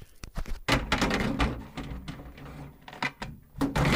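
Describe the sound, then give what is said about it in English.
Faint knocks, clicks and scrapes come from a back panel being fitted onto a machine that has a newly installed drive. The irregular thunks are scattered through the whole span at low level. “So what we're doing now is putting the back panel on.”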